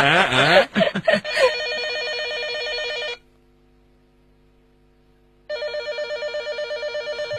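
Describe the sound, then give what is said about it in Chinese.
A telephone rings in a home, giving a steady electronic warbling ring for a few seconds, then a pause of silence, then a second bout of pulsing rings, loud and clear. “快快啊！电话， 我接。”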